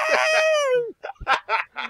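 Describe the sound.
A human voice imitates birds squawking for birdseed: first a long, high, nasal squawk that bends downward at its end, then a few short, choppy clucking squawks in quick succession.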